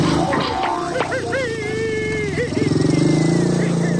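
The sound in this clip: A motorcycle carrying four riders pulls away fast, its engine giving a loud, rough, throbbing roar that stays strong throughout and turns into a pulsing rhythm toward the end.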